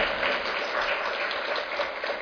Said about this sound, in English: Please, another round of applause for our presenter.